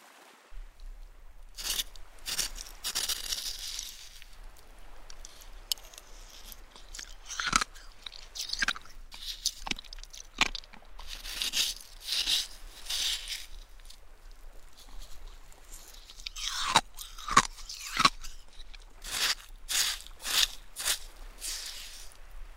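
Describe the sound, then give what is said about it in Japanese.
Crunchy shaved ice with sweet syrup being chewed: many quiet, crisp crunching bites in an uneven rhythm, with no talk. “かき氷がシャクシャクで、シロップが甘くて。”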